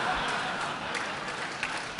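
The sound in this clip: Audience applause during a live tech demo: steady, dense clapping that holds at an even level for about two seconds, with no clear breaks.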